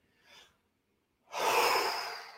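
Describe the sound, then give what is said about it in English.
A person takes a deep breath: first a faint short intake, then after a pause a long, loud, rushing breath that slowly fades. No talking is heard. “Before we go any further, though, I do want to just kind of take a deep breath.”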